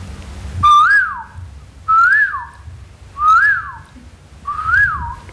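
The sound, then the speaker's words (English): A person whistles an imitation of a koel's song in four loud, evenly spaced phrases. Each phrase is a clear tone that swoops upward and then slides back down, with a faint low hum beneath. “Srila Gurudev, and he's hearing these kokils, who they sound a little like this.”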